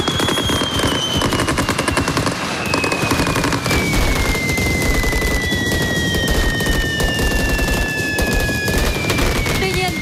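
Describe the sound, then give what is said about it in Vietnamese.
Sustained heavy gunfire from special forces officers engaging a group of attackers while shielding a bus, with rapid automatic bursts and overlapping shots packed densely and loudly throughout the ten seconds. “Các sĩ quan đặc nhiệm nổ súng tiêu diệt nhóm khủng bố và che chắn cho xe buýt.”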